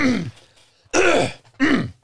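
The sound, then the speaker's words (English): A person clears their throat three times, each a short, rough, guttural rasp separated by brief pauses. “I'm clearing my throat like I'm going to do something, but I don't know.”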